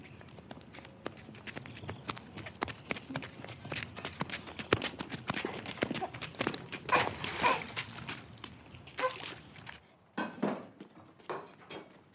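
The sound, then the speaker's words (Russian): Running footsteps in flip-flops slapping and splashing through puddles on the way home: many rapid, irregular wet steps, fairly faint, thinning out into a few scattered steps near the end. “Катерина и Луна бегут домой в шлепках, наступая на лужи”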